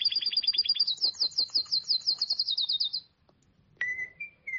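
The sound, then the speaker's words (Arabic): A small bird chirping inside a covered cage: a rapid run of bright, high twittering chirps for about three seconds, a short silence, then a few shorter, clear calls. “أحضر له عامر غطاء وغطى القفص كله، لكن العصفور لم ينم وظل يصيح.”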